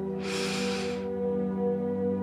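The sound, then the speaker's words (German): A single deep breath in during a guided meditation, a soft airy rush lasting under a second, over a steady low sustained musical drone that carries on after the breath ends. “Lass alle Gedanken einfach vorüberschweifen und atme ganz tief ein”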